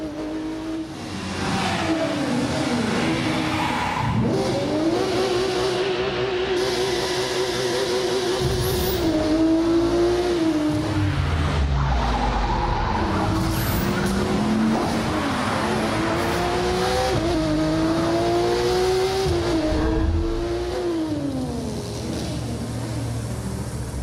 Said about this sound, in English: street racers prove their skills, skidding on rooftops, burning asphalt, and tuning their ride.